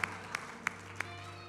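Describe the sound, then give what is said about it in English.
Hand claps from a church audience in a praise service: four sharp, evenly spaced claps, fairly faint, over a low steady hum. “Give the Lord a shout of praise and a hand clap right now.”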